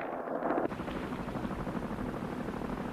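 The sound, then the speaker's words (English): A fleet of helicopters approaching an offshore platform across the water, heard as a low, dense, continuous rumbling drone, slightly brighter and louder in the opening moment before settling into a steady roar. “The fleet of helicopters approaches the platform across the water.”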